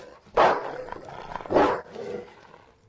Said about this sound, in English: That dog is really creeping me out, man. It's a big fucking dog.